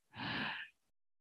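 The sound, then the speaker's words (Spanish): A single deep breath drawn during a guided breathing exercise: a soft, airy rush lasting a little over half a second that swells quickly, holds and then stops, followed by near silence. “El no saber respirar es la primera fuente de enfermedad. Inhalamos.”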